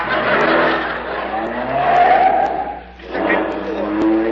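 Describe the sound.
A Town and Country car climbs a parking garage ramp, its tires squealing and its engine noise swelling, dipping briefly, then surging again in broad, loud waves.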